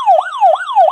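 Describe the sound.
A handheld buzzer gives a police-siren-like wail: loud, smooth rising and falling pitch sweeps repeating about three times in one second, with no voices.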